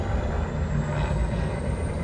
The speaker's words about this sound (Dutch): Oh, de Millennium Falcon stijgt nu op.